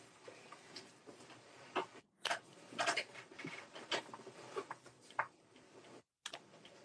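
Keys are tapped on a computer keyboard while a search is typed, producing quiet, irregular clicks and taps with a few louder strokes scattered throughout, and no talking.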